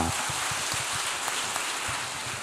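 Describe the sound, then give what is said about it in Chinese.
Audience applause after a question at a writer's talk. The soft, dense patter of many hands stays steady and even throughout, much like rain. “请给 Robert 掌声鼓励一下。”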